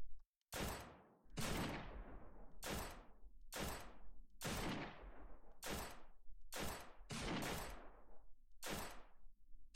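Gunfire aimed at a small group of zombies: many separate sharp shots, each with a quick decaying tail, fire at an irregular rhythm, some in close pairs, with no talk.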